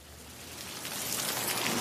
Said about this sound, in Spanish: De repente, comienza a llover.